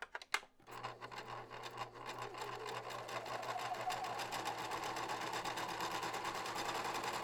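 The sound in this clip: A sewing machine runs at a steady, rapid mechanical chatter after a couple of sharp clicks at the start, the fast stitching rhythm holding evenly and quietly for several seconds.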